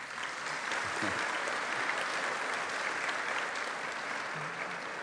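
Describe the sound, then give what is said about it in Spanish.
Dense, steady audience applause fills the whole stretch at a morning ministry gathering, a continuous wash of many hands clapping with no break or swell. “Recíbalo con un buen aplauso.”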